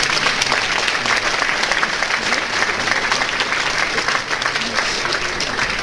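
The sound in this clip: An audience at a competition show applauds after the day's top score is announced, with dense, steady clapping throughout.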